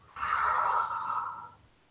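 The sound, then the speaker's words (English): A single deep breath, a soft, airy rush lasting about a second and a half that rises quickly and tapers away, heard alone. “deep breaths.”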